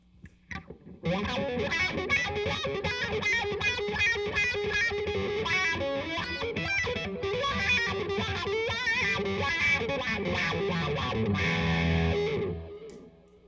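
A distorted electric guitar played through a wah pedal, the second option in a comparison. A few plucked notes lead into about twelve seconds of a loud, continuous sweeping riff that cuts off and fades at the end.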